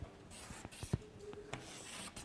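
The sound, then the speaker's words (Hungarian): Scratchy rubbing strokes of lines being drawn for a grid on a board, with many short, uneven scrapes of moderate loudness over a steady background hiss. “talán kezdhettem volna is, hogy a rácsot rajzolom föl.”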